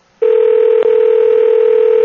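A telephone call rings out and goes unanswered, heard as a loud, steady, unbroken electronic line tone that starts abruptly after a brief silence. No voices are heard.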